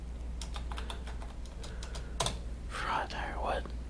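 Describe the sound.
Faint typing on a computer keyboard during an online search: quick, light keystrokes in irregular bursts over a low steady hum, with a soft, breathy noise toward the end.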